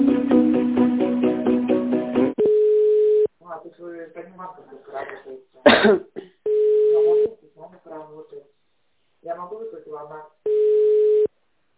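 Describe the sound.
Telephone ringback tones as a call is being connected: a short burst of tonal hold music, then three steady, evenly pitched beeps about a second long, separated by stretches of someone talking.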